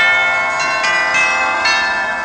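Chiming bell-like tones from the cathedral chime effect of an electronic keyboard: sustained ringing notes overlap, with a few fresh strikes adding bright new attacks over a steady, continuous tone.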